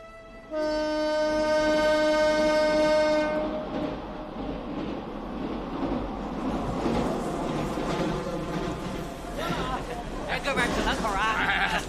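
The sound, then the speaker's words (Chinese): A passenger train on its homeward run sounds a long, steady horn, then carries on with a continuous, loud rumbling and clattering running noise. “孙大庆登上了回程的火车。”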